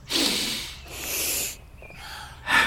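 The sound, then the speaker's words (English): Deep nasal inhalations taken in to smell the Christmas air: a few loud, breathy sniffs separated by short pauses, with no speech. “Take a deep breath.”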